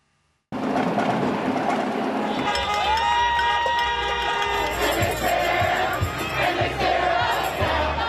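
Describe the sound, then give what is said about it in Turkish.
A crowd of Biden supporters celebrates in the streets of the USA after he is declared president: loud, continuous cheering and shouting begins abruptly after a brief silence, soon joined by sustained honking or whistling tones. “Ama Biden'ın ABD'nin yeni başkanı ilan edilmesiyle destekçileri sokakları adeta karnavala çevirdi.”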